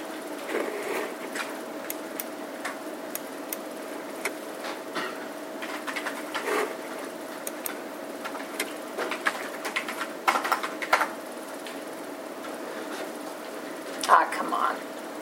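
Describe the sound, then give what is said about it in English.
Someone types a password on a computer keyboard in many sharp, irregular clicks, some in quick bursts, over a faint steady hum. “And then you type in the password.”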